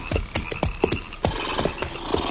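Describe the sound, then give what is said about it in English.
Horses being reined in to a halt on a dry prairie, hooves clip-clopping in an irregular, fairly soft patter of hard strikes, alone without talk. “All right. Hold it. Pull up them horses.”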